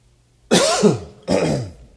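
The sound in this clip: Throat clearing: two harsh, rasping bursts, the first louder and slightly longer, the second shorter, with no talk around them.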